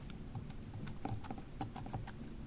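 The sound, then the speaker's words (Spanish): Typing on a computer keyboard while entering code, a dense run of many quick clicking keystrokes at a steady pace over a low background hum. “Vamos a escribir saludo, que es el nombre de nuestra variable.”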